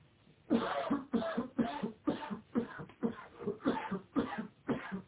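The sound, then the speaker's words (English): Someone coughs in a long run of short, harsh bursts, repeated at a fairly steady rhythm, each cough rough and breathy at moderate loudness. “I can hear someone coughing.”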